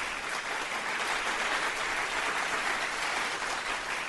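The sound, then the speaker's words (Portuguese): Steady applause from an audience clapping for a couple's 24-year marriage, a dense, even wash of many hands that stays at a constant level for about four seconds with no voices over it. “A gente aplaude porque precisa, né?”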